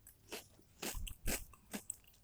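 Crunching on kerupuk gendar crackers: four crisp, dry bites about half a second apart, each a sharp crackle, the third the loudest, with no talk.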